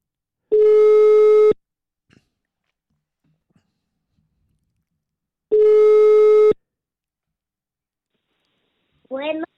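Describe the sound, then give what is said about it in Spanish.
A telephone ringback tone plays while someone is being called. Two steady, one-second tones sound about five seconds apart with silence between them, and a brief voice follows at the end. “Esta es la primera persona que le estamos marcando. Y a ver si contesta.”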